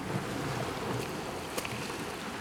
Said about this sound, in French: Jeu du ressac des vagues.